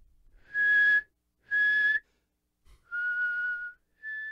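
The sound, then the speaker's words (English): A person whistles an old tune in four clear, drawn-out notes. The first two are equal in pitch, the third is lower and longer, and the fourth is higher and cut off at the end. “the guy then later who's talking to Carol's like, yeah, this gentleman sneaking away from her house was cutting through my backyard whistling this old tune. It was something like,”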